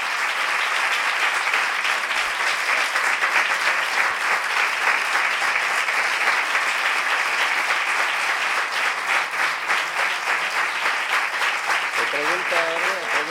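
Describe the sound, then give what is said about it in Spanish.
Sustained audience applause at a provincial flamenco and education conference: dense, steady clapping that holds at an even level for the whole stretch, with a voice briefly emerging near the end. “yo quiero que le dé un fuerte aplauso a Fernando de la Morena.”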